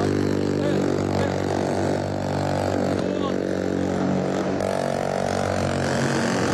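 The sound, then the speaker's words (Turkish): Two attack boats carrying commandos approach during a hostage-rescue demonstration. Their engines make a steady, throbbing low drone with some revving, and voices talk over it. “SAT komandolarını taşıyan iki atak bot alana geliyor.”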